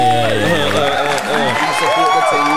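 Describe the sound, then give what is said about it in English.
Audience applause and cheering for two guests at the start of a show: continuous clapping beneath loud, excited voices whooping and calling out throughout. “Let's get a round of applause.”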